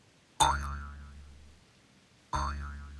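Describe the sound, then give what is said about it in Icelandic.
Two springy cartoon boing effects for a hopping kangaroo, each a sudden twang with a wobbling, decaying tone, the second arriving about two seconds after the first. “Ég skal byrja, ég prófa að hoppa og skoppa, sjáum hvort honum þykir það fyndið, sagði kengúran. Svo hoppaði hún og skoppaði.”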